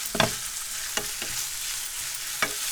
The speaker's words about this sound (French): Donc je l'écrase. Je remue un petit peu.